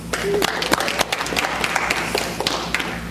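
Scattered, uneven clapping from an audience at a Sunday evening church service, giving a short round of applause for the sound booth. A few sharp individual claps stand out from a quieter background.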